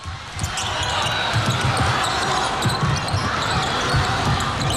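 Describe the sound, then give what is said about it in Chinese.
A basketball dribbled up the court by the Czech team in an international game against China: repeated low, soft bounces under dense, steady crowd noise. “捷克队运球到前场”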